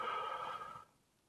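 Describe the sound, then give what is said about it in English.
A single slow breath, taken during a guided relaxation breathing exercise, holds a soft, steady airy rush for most of a second before quickly fading away. “Might be a little annoying to have me breathe in your ear”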